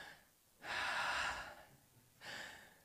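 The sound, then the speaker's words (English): A person imitates a deep, savoring breath of fresh Berks County air. A long, loud inhale is followed after a pause by a shorter second breath. “And she'd breathe like,”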